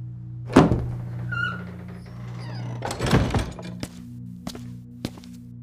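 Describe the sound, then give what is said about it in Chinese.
Wooden door pushed open into a study in an ancient palace: a sharp thud, a brief creak, then a louder clunk followed by a few lighter taps over a low steady hum. “他轻呼一口气，推门走了进去。”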